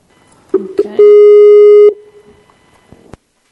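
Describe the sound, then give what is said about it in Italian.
A Skype call connecting tone sounds as a single steady, mid-pitched beep lasting about a second. It is loud and clean, with a few short clicks just before it and faint clicks after it. “Facciamo il collegamento in Skype.”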